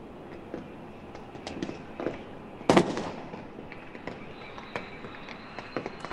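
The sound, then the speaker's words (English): Fireworks burst over a cheering crowd in Tahrir Square, a single loud bang in the middle standing out from a steady run of many sharper pops and crackles, all fairly faint overall. “And if you want to listen, you can hear these fireworks going off.”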